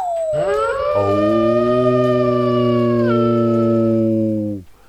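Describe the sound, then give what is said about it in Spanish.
A single loud, sustained howl, attributed to wolves on a mountain, opens with a quick downward slide, then holds a steady, harmonic-rich tone for about four seconds before cutting off abruptly. “Lobos, arriba en la montaña.”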